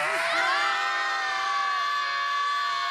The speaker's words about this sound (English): Matter of fact, let's all scream.